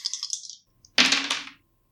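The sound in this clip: Dice are rolled during a tabletop role-playing game: a brief light rattle, a short pause, then a louder, sharper clatter that quickly dies away.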